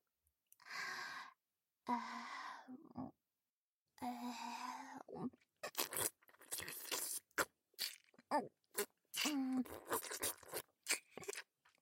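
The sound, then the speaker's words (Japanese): Someone tasting a small bite of food, many soft wet mouth clicks, nibbles and faint crunches in an irregular rhythm, preceded by a few breathy, voiced sighs. “少し味見を。”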